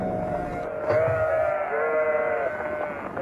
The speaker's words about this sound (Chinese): 有只小羊摔倒了